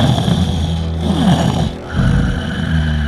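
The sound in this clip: A sleeping serpent-dragon monster snores loudly, a deep, rasping, rumbling snore that dips briefly and then resumes.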